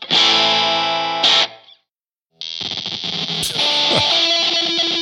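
A Squier Paranormal Esquire Deluxe electric guitar plays through a 5-watt tube amp with a 6V6 power tube, giving loud, distorted, sustained notes. A brief silence follows, then a second overdriven passage with a changed tone.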